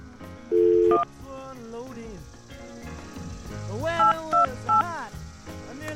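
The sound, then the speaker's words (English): Telephone dialing tones: one sustained tone near the start, then three short, higher beeps in quick succession later, heard clearly over a busy background of other sound. “Dial your carefully. Dial like the wind. Here's her number. And dial again.”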